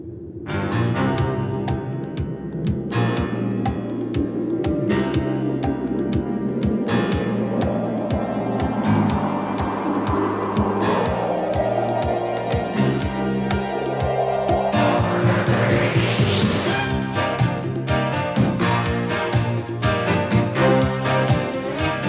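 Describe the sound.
A yacht rock song plays on a radio show: a full, steady band mix with bass, rhythmic accents and sustained tones, and a bright sweep climbing in pitch near the end.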